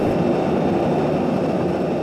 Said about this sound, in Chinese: 现在去接飞机，飞机现在刚刚落地。